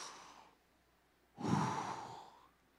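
Deep breathing during a guided relaxation exercise: one soft, short breath, then a pause and a longer, louder breath lasting about a second, heard alone without talk.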